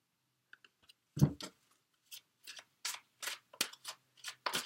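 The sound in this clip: Tarot cards are handled and a card flips out of the deck. Many short, dry, papery snaps and rustles come at an irregular pace, faint and crisp.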